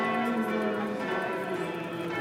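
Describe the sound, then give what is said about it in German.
Church bells peal at a pilgrimage site as worshippers process to the chapel, ringing out over amplified loudspeaker prayer; a dense, steady wash of overlapping bell tones fills the whole stretch. “Das mit Lautsprechern verstärkte Gebet wird nur übertönt vom Glockengeläut.”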